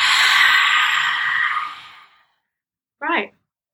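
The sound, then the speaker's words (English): Breathing through the mouth during a guided breathing exercise: a long, loud, airy exhale fades out over about two seconds, followed after a silence by a brief voiced breath. “And this one's going to be through the mouth this time. Darth Vader. Inhale. Exhale.”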